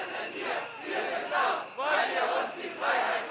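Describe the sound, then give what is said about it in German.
A crowd at a Berlin protest against the planned copyright reform chants loudly in unison, shouting repeated rhythmic phrases with short breaks between bursts. “Proteste gegen die geplante Reform des Urheberrechts.”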